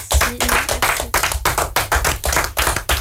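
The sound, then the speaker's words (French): Loud, rhythmic clapping from a radio studio audience applauding performers after a Steven Spielberg-themed show, with many sharp hand claps falling in a steady beat throughout. “Alors, on les réapplaudit bien fort.”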